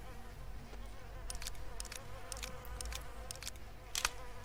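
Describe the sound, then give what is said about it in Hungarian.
Flies buzz around a backpack with rotting meat inside: a faint, continuous droning hum, broken by several brief, louder buzzing passes as they fly close. “Azért vannak körülöttem a legyek. Mert szerintem rohadt, valami rohad a hátizsákomban.”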